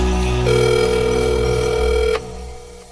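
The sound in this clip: A telephone rings with one steady electronic tone lasting under two seconds over a low background hum, then cuts off abruptly.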